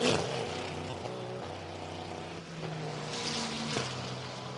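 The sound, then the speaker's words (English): A GTP race car, number 40, pulls away from a pit stop under the pit lane speed limit: a steady, loud engine drone with a humming harmonic whine and a brief pitch shift near the end. “It's a tidy pit stop, though, as off and away the 40 go.”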